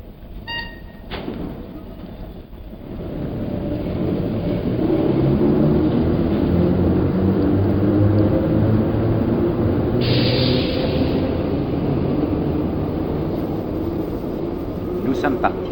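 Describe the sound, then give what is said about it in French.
A train departs from a platform: a low rumble builds over the first few seconds, then holds as a loud, steady roll with humming tones. “Le train peut partir. Une moitié de nous-mêmes est dans ce train, l'autre moitié reste sur le quai. Écoutons-nous partir.”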